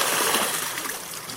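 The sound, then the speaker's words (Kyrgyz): Water pours and splashes from three buckets on a water-lifting wheel, tipping about 20 litres a minute into a channel, making a steady, bright rushing splash throughout. “Азыр дөңгөлөктө орнотулган 3 челек 1 мүнөттө 20 литр суу сузуп нууго куюп турат.”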